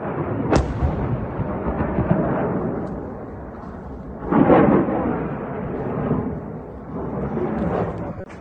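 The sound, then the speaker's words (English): Explosions from U.S. airstrikes on Iranian-linked targets, including a weapons depot, at Al-Qaim in Iraq's western Anbar province. A sharp crack comes first, then deep rolling booms swell and fade in a few waves over a low, continuous rumble. “tonight we are getting in the first images of U.S. strikes on Syria and Iraq. This is from Al-Qaim in Iraq's western Anbar province.”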